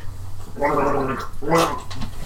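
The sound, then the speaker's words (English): Gargling water to cleanse the palate: two loud, bubbling, throaty bursts with a short pause between them, heard alone without talk. “it was me palate cleansing. That's called gargling.”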